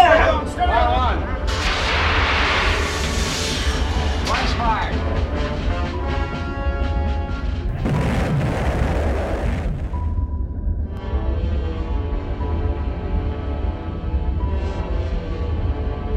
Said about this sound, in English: Torpedo one, fire!